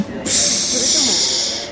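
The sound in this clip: Steam hissing from a type 230 steam locomotive: after a brief quieter start, a loud, steady high hiss holds for well over a second with fainter voice-like sounds underneath.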